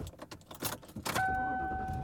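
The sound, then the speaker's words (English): Car sounds recorded while driving home: irregular rattles and clicks, then a steady two-tone hum that holds to the end. “And I am driving home.”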